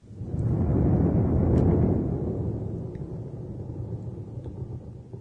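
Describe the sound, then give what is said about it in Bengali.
Deep rumbling thunder swells loud over the first two seconds, then slowly fades into a lower, continuing growl that rolls on to the end. No voices are heard. “বজ্রপাতের শব্দ, তাই না?”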